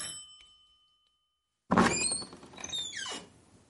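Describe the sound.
An apartment door is opened: near-silence, then a sudden solid thunk followed by squeaky, scraping creaks as it swings, fading out toward the end.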